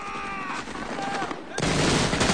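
Gunfire in a battle scene: thin whistling tones come first, then a sudden loud burst of rapid shots crackles densely through the final part.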